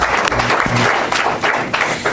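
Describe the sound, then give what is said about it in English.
An audience at a public hearing on fishing claps after the final testimony, a loud, dense burst of many hands that stays steady and full throughout. “I'll let you clap because that was the final piece of testimony.”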